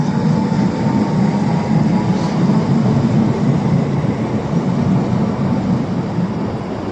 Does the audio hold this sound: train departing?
yes